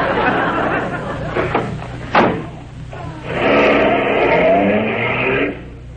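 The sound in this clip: A car drives along a mountain road with a low, steady engine hum beneath people talking, and a sharp thud cuts in partway through.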